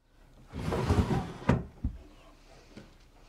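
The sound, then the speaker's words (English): A bedside table drawer slides open with a brief scraping rush, then knocks shut with a firm thud and a second lighter bump, followed by a faint tap as things settle. “she places it unopened along with others in her bedside table drawer.”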